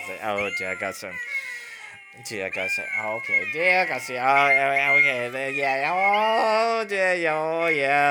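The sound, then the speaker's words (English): A musical greeting card plays a song of sung cat meows. The wavering, high-pitched electronic tones run loud and almost without a break, with short gaps near the start. “singing kitty cats. Oh dear, I see it's a singing kitty cats.”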